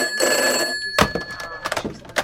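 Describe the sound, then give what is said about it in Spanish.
A telephone rings with an incoming call, a steady high electronic ring tone at the start, followed by a few irregular louder bursts. “Aguarda, tengo otra llamada.”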